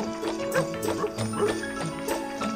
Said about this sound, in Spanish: ¡Arre, caballito! ¡Arre!